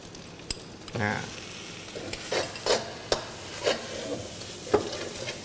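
Dried shrimp, a low-salt, naturally processed kind, added to a sizzling pan and stirred: a soft frying hiss under several scraping strokes of a utensil, coming in uneven bursts.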